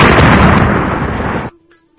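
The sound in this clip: A voice imitates a big explosion with a loud, rough, noisy roar that holds steady for about a second and a half, then cuts off sharply into near-silence with a faint lingering tone.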